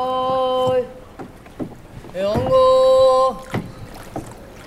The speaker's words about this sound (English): We moved away from the tourist centers of the city and into these smaller canals.